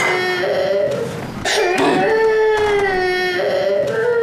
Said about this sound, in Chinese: 行了，你可别哭了。